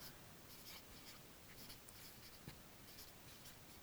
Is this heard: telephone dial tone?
no